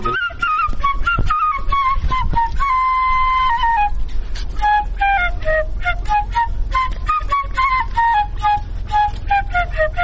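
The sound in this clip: A shepherd's flute (shpelai) plays from a distance: a high, clear melody of repeated descending phrases with one long held note near the middle, over a low background rumble.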